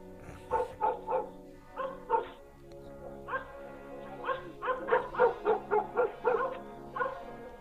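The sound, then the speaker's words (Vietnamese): A dog chained at a house's porch barks at night, giving many yelping, whimpering barks in bursts: a few spaced ones first, then a quicker run of sharp barks, moderately loud. “Tiếng chó sủa làm cho thằng Nguyên tỉnh giấc.”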